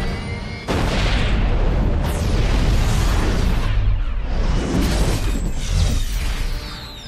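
A Jericho missile exploding, a missile that breaks up into many smaller missiles. A loud blast starts abruptly and becomes a continuous, heavy roaring rumble that holds for several seconds before easing slightly.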